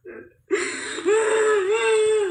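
Crying during a folk spirit-medium session: a short, muffled sound, then a sustained whimpering wail whose pitch wavers up and down, fairly loud and alone.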